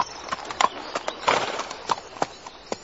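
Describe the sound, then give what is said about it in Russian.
Hooves clip-clop as a team of mail-coach horses trots downhill along a familiar road, many crisp, evenly spaced strikes in a steady, lively rhythm with no voices. “Почтальон уснул, и лошади рысью бежали под гору по знакомой дороге.”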